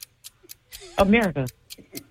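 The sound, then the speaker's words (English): A quiz round's timer ticks in quick, regular light clicks at a steady pace. A voice speaks briefly over the ticking partway through. “Start the clock.”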